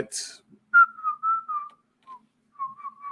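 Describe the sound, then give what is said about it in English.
Whistling from a video game loading screen: a few clear, high tones at a fairly steady pitch, broken by short gaps and ending in a wavering note. “You had a loading screen for a moment. It sounded whistling.”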